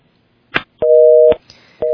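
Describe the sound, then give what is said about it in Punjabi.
Busy tone of a dropped phone call: a short click, then steady pulses of a clear electronic dual tone, one long beep followed by the next starting as the sound ends. “ਜੀ ਤੁਹਾਡੀ ਕਾਲ ਜਿਹੜੀ ਆ ਉਹ drop ਹੋ ਗਈ”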